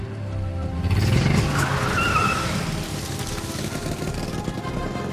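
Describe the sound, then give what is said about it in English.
A car pulls away with its tires skidding in the jungle. A rising squeal sweeps up over a loud engine roar early on, and then the engine carries on steadily, easing slightly in loudness toward the end. “They buckle seatbelts and drive off.”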